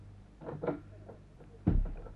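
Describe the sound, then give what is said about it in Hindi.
A door being opened in a home. A few soft clicks and rattles lead into a dull, low thump near the end, with no talking. “ए तू जल्दी भीतर जा, मैं दरवाजा खोलता हूँ।”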